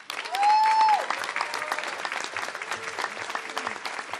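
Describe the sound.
Audience applause welcoming a speaker, a dense wash of clapping that swells quickly and stays steady throughout, with a brief whistle-like tone near the start.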